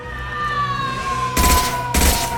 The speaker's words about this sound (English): Up ahead. Time to put some bullets down range.